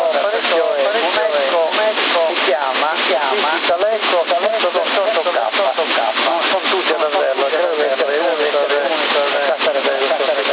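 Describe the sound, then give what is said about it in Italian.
A voice comes through a CB radio channel with an echo delay effect, its quick repetitions stacking on the words. The narrow, band-limited transmission runs steadily and loudly for the whole stretch. “però dovresti abbassare la velocità, il delay è troppo rapida la ripetizione, un po' più lento mettilo.”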